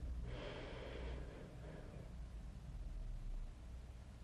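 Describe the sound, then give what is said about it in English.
A deep breath drawn in through the nose during a guided breathing exercise makes a soft, airy rushing inhalation early on. It is faint over low background hiss. “Take a nice deep breath in your last one, in through your nose.”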